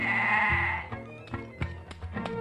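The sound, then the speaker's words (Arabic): A sheep bleats, giving one long wavering call and then several shorter, choppier bleats. “اثبت بقى كده، انت خروف سعيد زي اللي جايبينك صحيح يا جدع؟”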